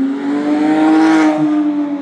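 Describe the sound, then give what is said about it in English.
A Porsche engine roars as the car accelerates away, a loud, continuous, harmonic-rich drone that holds steady for about two seconds. “Check that out. The sound of a Porsche shooting out.”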